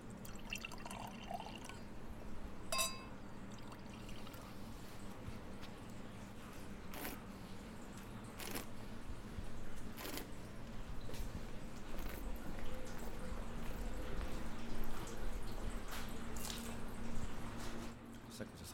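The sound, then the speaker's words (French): Wine is drawn from an oak barrel of the 2021 vintage for tasting, with dripping and trickling liquid, a few sharp clicks and a steady low hum, while voices talk in the background. “Oui, là, on s'avance sur une barrique. On va vous faire goûter quand même un deuxième vin plus classique de notre vendange 2021 avant de vous faire goûter quelque chose en bouteille.”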